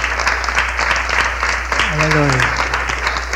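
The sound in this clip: Children applauding at a church service: dense, steady clapping that fills the whole stretch at an even loudness, with a voice talking over part of it.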